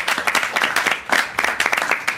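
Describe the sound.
A round of applause from a small group of about thirty football fans. Separate claps stand out in a brisk, uneven patter that swells and dips a few times across the short burst.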